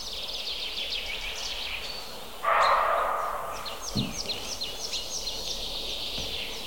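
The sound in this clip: Thin, high chirping calls of tits, including a coal tit, repeated many times at a quick, uneven pace, faint throughout, with a brief louder rustling burst midway.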